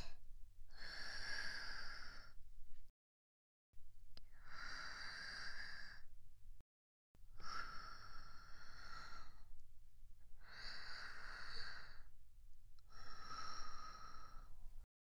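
Slow, airy exhalations during a breathing exercise: five long, soft breaths of a few seconds each, separated by short silences, with no talking.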